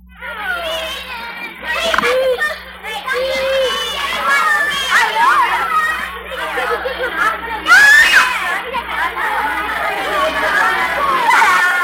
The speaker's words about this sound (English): Yes, that's the sound of kids on their way back to school.